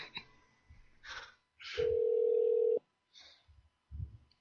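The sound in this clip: A hotel phone system at a Red Roof Inn near Chattanooga Airport transferring a call to a room: one steady, sustained telephone tone about a second long, set between short snatches of a voice.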